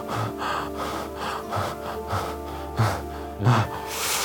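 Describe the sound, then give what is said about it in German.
A man gasps as he opens his eyes, making a couple of short, breathy intakes of air that rise faintly over soft sustained music. “Du siehst, wie er die Augen wieder aufmacht. Und ein bisschen einatmen.”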